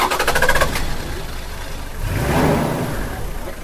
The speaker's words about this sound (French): Nous quittons la gare de Guimari à bord de deux véhicules 4x4 blancs pour un long périple.